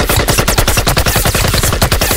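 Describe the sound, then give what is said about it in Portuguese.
Loud rifle gunfire fires many rapid shots in a fast, steady automatic rhythm that continues without a break. No voices are heard. “Puxou seu rifle e disparou.”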